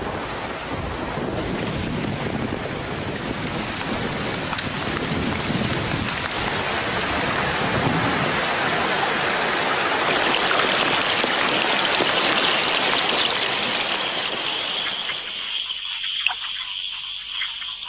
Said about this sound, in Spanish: Fuera, un aguacero antes del amanecer empuja a muchos depredadores nocturnos a refugios temporales.